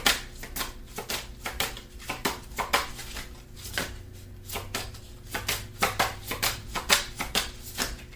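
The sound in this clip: Tarot cards being shuffled, a rapid run of many crisp papery riffles and snaps in an irregular rhythm, fairly loud and with no talking.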